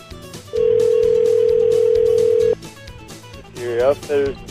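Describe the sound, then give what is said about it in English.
A telephone ringback tone sounds after dialing an outfitters shop in downtown Marquette: one long, steady electronic tone for about two seconds, then it stops and a voice answers. “So here we go, dialing up Superior Outfitters in downtown Marquette.”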